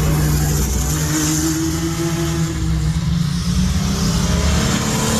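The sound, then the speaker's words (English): Race cars roll past at Put-in-Bay, their engines making a loud, continuous drone with a steady low hum that holds for the whole stretch and no clear pauses. “These are the race cars rolling through.”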